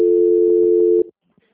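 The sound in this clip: A steady telephone line tone during a call transfer, one continuous mid-pitched beep lasting about a second, then cut off abruptly and followed by near silence.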